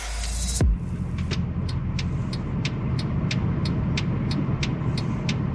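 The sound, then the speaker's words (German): The turn signal of a Mercedes C63 AMG Black Series ticks in an even, rapid rhythm of many crisp clicks, riding over a low, steady engine rumble. “Ja, so klingt der Blinker vom C63 AMG Black Series”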